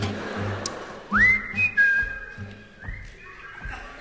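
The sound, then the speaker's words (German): An audience whistles along at a live concert: a clear whistled melody line of sustained notes with small slides, over softer background sound. “Everybody whistling again.”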